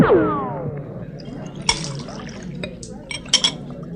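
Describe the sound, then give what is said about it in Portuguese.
Cachaça being poured into glasses at a bar, a liquid splash with tonal filling streaks at the start, then a few faint glassy clinks and knocks over a murmuring background. “Vendeiro, traz cachaça com farinha pra todo.”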